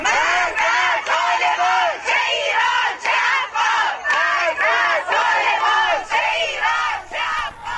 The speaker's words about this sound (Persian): این صدای خانواده های معترض است در تجمع مقابل آموزش و پرورش منطقه 2 تهران.